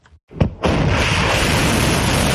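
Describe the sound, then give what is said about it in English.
Missiles launch toward a U.S. base, a couple of short bursts giving way to a loud, sustained rushing roar that carries on steadily to the end. “Iran said these missiles were launched at a U.S. base that it said had been used to attack Iranian territory.”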